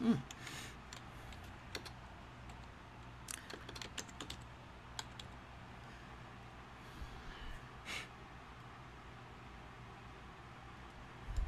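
Faint, irregular tapping of keys on a computer keyboard, with scattered sharper clicks against a quiet, hissy background and no talking.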